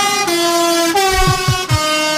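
A truck drives past with its air horn sounding: a loud, sustained horn tone that shifts pitch in steps, over a few low engine rumbles.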